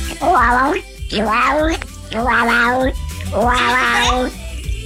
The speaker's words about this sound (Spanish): ¿Ese es un gato en celo?